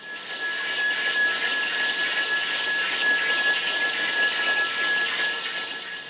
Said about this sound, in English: If the sub stays at 250 feet but speeds up, cavitation will begin at about 6.5 knots. At 8 knots, the propeller beats will be clearly audible.